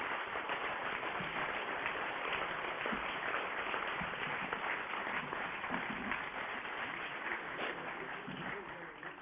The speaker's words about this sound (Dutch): Dames en heren, als de ondersteuning mij niet in de steek heeft gelaten, dan is iedereen nu beëdigd als lid van de gemeenteraad. Van harte gefeliciteerd. Er mag best voor geapplaudisseerd worden.